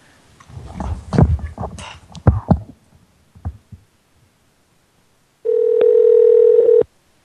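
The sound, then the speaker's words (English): A steady telephone tone on an outgoing phone call: one unbroken, mid-pitched electronic tone lasting over a second, loud and alone near the end, after a stretch of scattered, irregular noises. “Let's call another number on Pranfunkles.”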